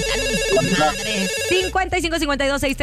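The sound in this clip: A telephone rings for an incoming call with bright, loud electronic ringtone notes in a repeating pattern, followed by a quicker run of pulsed tones.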